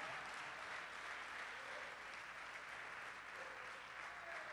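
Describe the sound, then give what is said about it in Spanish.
Applause from a church audience during a worship service: dense, even clapping that holds at a steady level for the whole stretch, fairly soft and without breaks. “Dale el aplauso al Señor en esta hora, dáselo fuerte.”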